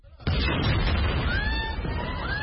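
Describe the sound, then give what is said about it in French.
An explosion in the courtyard of Al-Aqsa Martyrs hospital in central Gaza bursts in suddenly and loudly, then continues as a dense, roaring rumble. “Un hélicoptère au-dessus, une explosion dans la cour de l'hôpital des martyrs d'Al-Aqsa, dans le centre de la bande de Gaza.”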